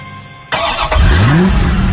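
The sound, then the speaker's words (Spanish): A car engine starts with a sudden loud burst, then revs hard, its low whine climbing steadily in pitch and staying loud to the end, with no talking. “Motor en marcha y vuelta al aire.”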